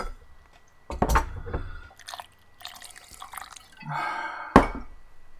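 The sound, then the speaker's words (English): Ice being stirred in a drink glass, giving a few scattered clinks and watery swishes at uneven intervals, with one sharper knock near the end. Quiet gaps fall between the sounds, and no voices are heard. “I've got to stir my ice.”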